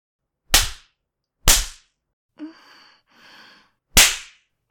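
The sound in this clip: Three sharp hand slaps from a spanking crack out loud, each with a quick decay. A soft breathy vocal sound falls in the gap between the second and third slap.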